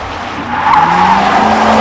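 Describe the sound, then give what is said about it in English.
Tires squealing as an ice cream truck skids in a near collision: a loud, sustained, high screech with a steady whine that grows louder after the first half second and holds to the end. “That truck almost hit us. Why was it even speeding in the first place? It's a fucking ice cream truck.”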